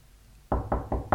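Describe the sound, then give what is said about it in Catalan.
Knocking on a door: four firm, evenly spaced knocks, loud and alone after a short quiet start. “Truquen a la porta. Tan aviat, al matí, això no passa mai.”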